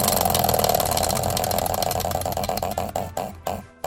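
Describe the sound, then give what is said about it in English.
Prize wheel spun on a game show, its ticking first a rapid, dense blur, then slowing until the last few clicks fall apart and stop. “Andrew, give that wheel a spin and get unemployment finally ready to go.”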